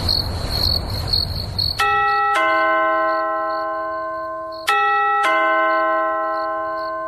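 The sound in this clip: A house doorbell rings twice, each ring a two-tone ding-dong with long, sustained chime tails. Insect-like chirping is heard before the first ring.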